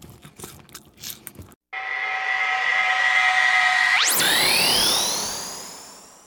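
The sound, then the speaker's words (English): Someone munches snacks with a few quick, crisp crunching bites. After a brief silence, a sustained electronic tone rises and then fades out. “Oh, there's only a few left. I just think I'll eat the rest of them.”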